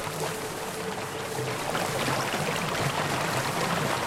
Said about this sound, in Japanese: これ滝。